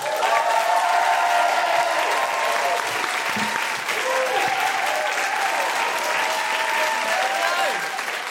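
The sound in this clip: A studio audience applauds and cheers to welcome a guest. Dense, continuous clapping carries whoops and woohoos over it, loud and steady for the whole stretch.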